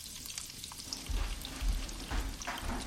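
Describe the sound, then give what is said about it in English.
Onions sweat in a pan over low heat while being stirred, giving a steady, dense sizzle and crackle. It runs continuously without pause and grows slightly fuller partway through. “Just keep an eye on those onions for me, please. We don't want them to get brown. Just sweat them down a bit, so they should be cooked at a low temp, and just keep stirring them.”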